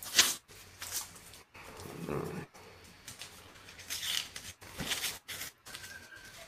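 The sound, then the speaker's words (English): Cardboard package box being ripped open, with several bursts of harsh tearing and rustling separated by brief pauses. “You're ripping it open. This is a box of goodies.”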